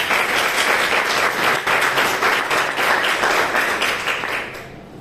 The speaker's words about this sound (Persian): و چقدر خودتون رو تشویق کنید